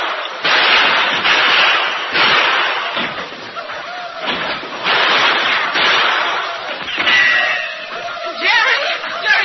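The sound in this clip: Gunfire during a Comanche raid in a Lone Ranger radio drama, rendered as a sound effect: many loud, rough shots and blasts overlap in a dense, continuous barrage with little pause.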